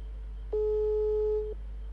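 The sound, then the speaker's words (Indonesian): A telephone busy tone follows a dropped call: a single steady, mid-pitched electronic tone lasting about a second, then it stops, with a constant low hum underneath. “Nah, sambungan kita terputus saudara-saudara.”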